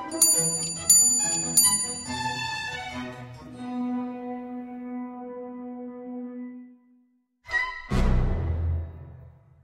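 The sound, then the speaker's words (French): A Zenith pendulum clock from Neuchâtel chimes the half hour. A few bright metallic strikes ring out and fade slowly, then after a brief pause another, louder strike follows. “et hop, j'ai sonné la demi-heure, le repas était prêt.”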